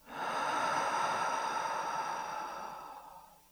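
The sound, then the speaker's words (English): A slow, full breath during a relaxation exercise: one long, steady airy rush that holds evenly, then gradually softens and fades out over a few seconds. “Take a slow, full breath in and let it out.”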